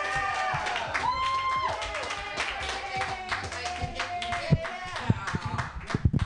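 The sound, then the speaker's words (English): An audience clapping for a first-time comedian at a comedy show, with voices mixed in over the claps, which grow sparser and sharper toward the end. “Hey, put your hands together, everybody. For this first time ever doing comedy, this new guy.”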